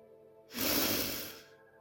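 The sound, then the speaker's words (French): One deep breath taken during a guided relaxation exercise. A soft, airy rush swells up and then slowly fades over about a second, faint and alone, with no talk. “Respire profondément.”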